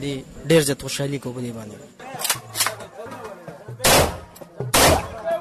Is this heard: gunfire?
yes